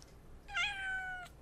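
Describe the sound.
A female house cat gives a single drawn-out meow, faint and tonal, rising at the start and then holding steady before it stops, with no talk.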